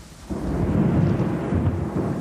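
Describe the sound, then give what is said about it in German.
Thunder in a storm at sea, a deep continuous rumble with a hiss like rain. It swells in suddenly after a brief quiet moment and then rolls on at a steady, heavy level. “Als die Flotte das Kap der guten Hoffnung erreicht, legt sich ein Sturm über die See.”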